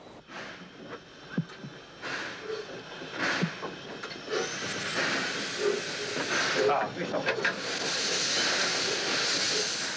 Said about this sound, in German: Jetzt fährt auch die Lok wieder richtig herum.